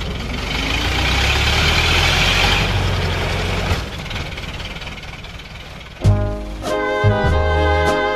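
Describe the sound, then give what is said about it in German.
A Ford Model T engine knocks and rumbles at a low pitch as the car backs up in reverse, with the middle pedal pressed and a little throttle. The steady heavy drone eases midway, and a sharper burst of sound follows near the end. “Denn ich will ja rückwärts fahren und bediene also das mittlere Pedal und gebe ein bisschen Gas und dann fährt er rückwärts.”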